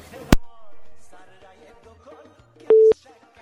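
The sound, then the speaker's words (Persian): A telephone busy signal after a call has been cut off: one steady mid-pitched tone burst sounds loudly near the end, preceded by a single sharp click earlier in an otherwise quiet stretch. “بله فکر میکنم تماسشان قطع شده.”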